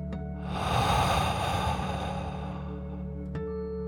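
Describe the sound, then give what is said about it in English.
One long, deep breath in and out is drawn during a children's bedtime relaxation exercise. It swells and then slowly fades over a steady, soft tonal background. “as you take one more deep dragon breath in and out”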